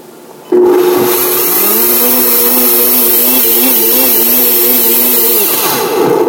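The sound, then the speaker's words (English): A Blendtec blender switches on abruptly and runs with a loud, steady whir for about five seconds. Its motor tone wavers slightly before it winds down. “the top's going on the Blendtec, and I'm turning it on. And I'm just going to pulse it.”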